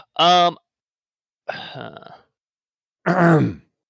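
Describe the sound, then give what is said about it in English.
A person clears their throat in three short, separate throaty bursts with pauses between them, each rough and voiced, heard alone. “No, I made a throat clearing noise.”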